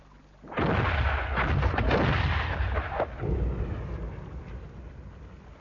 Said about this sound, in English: One more salvo, and we should be out of range before they can reload.